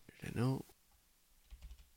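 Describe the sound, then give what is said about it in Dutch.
Faint typing on a computer keyboard while entering a web search: a few quick, soft key clicks follow a brief spoken word. “Typ eens in op Google Renault FT.”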